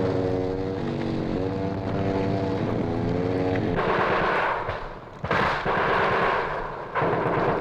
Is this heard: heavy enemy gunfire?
yes